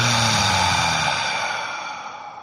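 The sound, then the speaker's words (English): A slow, steady breath taken during a two-count breathing exercise, a soft airy rush that fades gradually over about two seconds, heard alone. “So inhale for two. Hold for two. Exhale for two.”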